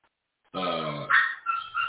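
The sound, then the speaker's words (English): An excited dog grunts and barks in a few short, throaty bursts of moderate loudness after a moment of silence, with no talk. “See, this dog is going crazy. I'm sorry if you hear him.”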